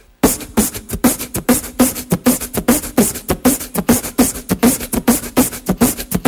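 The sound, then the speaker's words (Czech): Beatboxed snare drum made with the mouth: a steady, evenly spaced run of many sharp, crisp percussive bursts with a bright attack and a short low thump, alone with no talking. “Další důležitý zvuk je zvuk snéru. Ten zní takto.”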